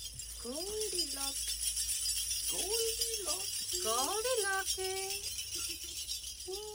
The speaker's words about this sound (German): Klimperkohle. Klimperkohle. Sehr schön, wie du langsam ausprobiert hast, wie laut das ist, um zu gucken, was geht und was nicht.